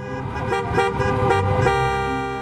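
Car horns blare in a protest traffic jam in Michigan, where drivers gathered against stay-at-home orders; loud sustained honking holds for the whole stretch without pause.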